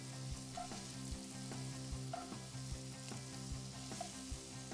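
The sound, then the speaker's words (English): Prawns sizzle in a frying pan with a steady, faint hiss, and soft low thuds recur at an even pace. “It literally is 45 seconds on each side, and then you flip the prawns over to where they all shape like sixes.”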